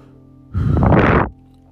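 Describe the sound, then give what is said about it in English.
One deep breath during a guided relaxation exercise: a loud, rushing, airy inhalation lasting under a second, set against a steady low hum. “Take a deep breath. Another deep breath.”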